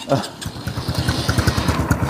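Motorcycle engine putters with a rapid, even low pulse as a beginner rider lets the clutch out and gives it gas while stuck in too high a gear, third.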